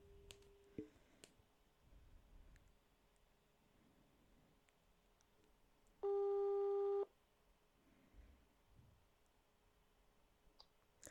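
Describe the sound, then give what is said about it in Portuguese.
A telephone call rings out as a single loud, steady tone lasting about one second. Faint clicks and a low hiss surround it in an otherwise quiet stretch. “vou ligar à Mariana, acabou. Mariana atende-me, de certeza.”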